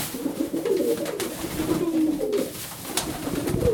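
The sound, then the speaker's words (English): Nine white doves, essentially white pigeons, coo in a shed where they are kept to reset their homing instinct. Soft, low, overlapping cooing runs throughout with a few brief sharp clicks. “Now, if you can hear that, folks, that's the sound of 9 white doves.”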